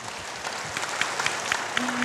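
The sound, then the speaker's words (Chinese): Warm applause from an audience at a talk on Buddhist sutras, with many hands clapping steadily at a moderate level. “哇，给自己热烈的掌声。”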